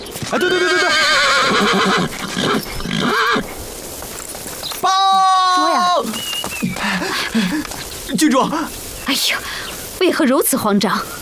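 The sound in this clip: Horses whinny repeatedly as a mare is brought to a black stallion for breeding: several loud, shrill, wavering neighs, including a strong sustained call midway and more quick, trembling whinnies toward the end.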